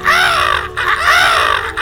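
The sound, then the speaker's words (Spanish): A black vulture (gallinazo) calls in the sugarcane country of Paramonga, giving two loud, hoarse, rasping caws in quick succession. “Paramonga, tierra de cañaverales, tierra donde el gallinazo canta.”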